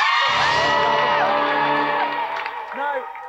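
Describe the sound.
A game show studio audience cheers and whoops to welcome a contestant: many voices shout at once, with sliding high whoops over a loud crowd roar that slowly eases off, then one last whoop rises near the end.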